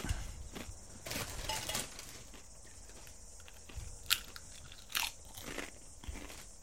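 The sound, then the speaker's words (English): Faint, crunchy chewing and biting of food, a soft stream of mouth noises with a few sharper, louder crunches standing out. “So, excuse the chewing.”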